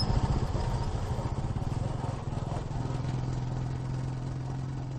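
Motorcycle engine droning through a ride toward a rural village in hilly country, a steady mid-pitched hum with a rapid clattering pulse that runs unbroken for the whole stretch, with no talking over it.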